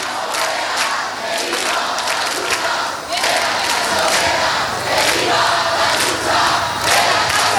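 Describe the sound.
A protest crowd in Puerta del Sol, Madrid, chants "no pasarán", loud massed voices rising and falling in a repeated rhythmic slogan that carries on for several seconds.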